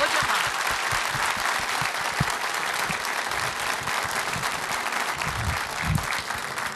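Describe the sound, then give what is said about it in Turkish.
Audience applause for Turkish folk singers of the State Turkish Folk Music Choir: a dense, continuous clatter of many hands, steady and moderately loud throughout, with a few deeper thumps near the end. “Bir alkış istirham edeyim efendim.”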